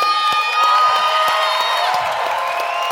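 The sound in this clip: An audience cheers, whoops and claps for a guest, a dense, loud roar of voices with high shouts and whistle-like cries that holds steady for the whole few seconds.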